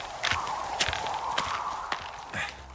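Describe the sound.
Footsteps of a character hiking in the video game Firewatch: a handful of steady, evenly spaced crunching steps over a soft, constant ambient hiss.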